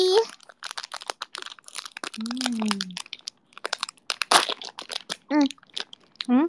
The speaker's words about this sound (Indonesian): Aku mau buka es krim mochi.